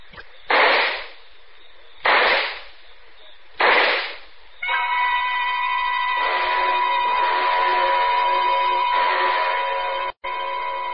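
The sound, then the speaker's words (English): Handgun gunshots: three sharp, loud bangs about 1.5 seconds apart, each decaying quickly, followed by a sustained, steady tonal chord. “Then I opened my purse, took out the gun, aimed very carefully at a spot just in the center of his left shoulder blade, and pulled the trigger four times.”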